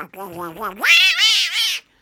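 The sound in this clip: A voice imitates a cat's meow. A short low vocal phrase comes first, then a loud, high, whining meow that rises and holds for about a second before stopping abruptly.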